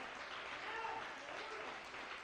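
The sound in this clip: A church audience applauds in a steady wash of clapping that runs the whole length, fairly faint and even, with no distinct individual claps standing out.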